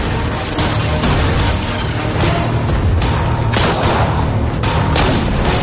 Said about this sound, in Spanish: Al mismo tiempo, las bombas que lanzan los morteros explotan a su alrededor llenando todo de llamas y negro humo.